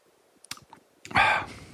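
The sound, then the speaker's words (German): A few quick, sharp computer mouse clicks made while ordering a carton of wine online, followed by a brief louder burst of sound. “Das ist jetzt wieder so der Moment, wo ich, während du was erzählst, im Hintergrund schon rumklicke und mir davon einen Karton bestellen will.”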